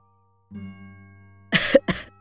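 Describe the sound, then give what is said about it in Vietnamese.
A man lying on a boat at night while smoking gives two dry, harsh coughs in quick succession. They come after a quiet, low sound. “Thằng Thông thở dài rồi lại ho khan mấy tiếng.”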